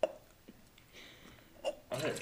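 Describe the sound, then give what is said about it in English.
A can of Ice Mountain Pomegranate Lemonade sparkling water is cracked open, with a sharp click at the start, then a short burst of fizzing hiss near the end, all fairly faint. “Just to reiterate, this is Ice Mountain Pomegranate Lemonade, and I'm going to crack it open.”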